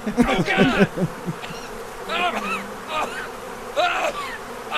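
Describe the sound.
Bees buzz around a person covered in honey, a high, wavering drone that swells and fades in repeated bursts.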